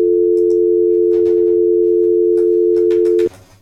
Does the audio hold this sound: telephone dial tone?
yes